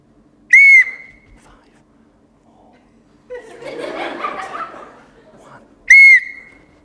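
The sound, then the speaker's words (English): Two loud, shrill blasts on a whistle, each short and high-pitched, used to signal turns in a group acting game, with a burst of laughter and chuckling from several people between them. “When I blow the whistle again, it's going to work.”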